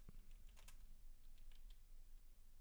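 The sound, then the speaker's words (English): Typing on a computer keyboard gives a faint string of quick, irregular key clicks over a low background hum. “If I could type right, that would help.”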